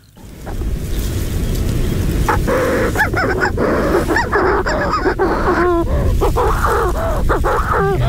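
Calls of an agile flying bird with a black back: many sharp, harmonic cries come in quick succession over a steady roar of wind or surf after a quiet first half-second.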